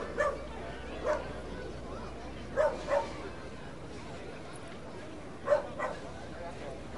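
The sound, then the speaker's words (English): Dogs barking at the ballpark of the Palm Beaches during a minor-league baseball game on dog day. Several short, sharp barks come in scattered pairs over a steady crowd hum. “So it's dog days here at the ballpark of the Palm Beaches, and you can hear the dogs barking.”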